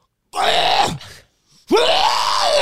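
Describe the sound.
A voice imitates someone screaming while throwing up in two loud, strained, retching bursts with a short pause between. The second bursts in with a sharp upward-sliding pitch before holding a raw, drawn-out groan.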